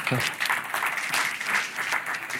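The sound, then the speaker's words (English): Audience applause, a dense rush of clapping that carries on steadily throughout, with crowd voices mixed into it. “don't clap for that. It only encourages those guys back there, you know.”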